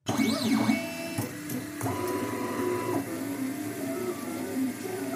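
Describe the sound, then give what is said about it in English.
A 3D printer printing handheld plastic microscopes whirs continuously, its stepper motors singing in shifting tones that slide up and down in pitch, with a few short jumps between steady whines. “Now that's the sound of a 3D printer, which Richard is using to make handheld plastic microscopes”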